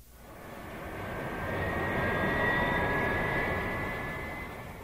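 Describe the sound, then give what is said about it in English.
A Boeing airplane flying past gives a smooth, broad roar that swells to a peak midway and eases off toward the end, with a thin, steady high whine running through it. “This is a plane. It's a Boeing.”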